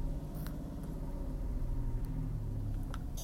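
Steady low rumble of a car being driven, with engine and road noise holding at a constant level for the whole stretch. The drone is deep and even, with no voices.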